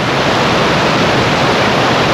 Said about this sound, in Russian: А теперь послушаем, как звучат разные воды. От ручейка до бурного водопада.